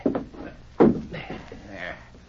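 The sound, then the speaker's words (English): A chair kicked over in a radio drama fight scene, staged to fake a struggle, gives one sharp heavy wooden thud among voices talking. “Kick that chair over while I scuff up the rug.”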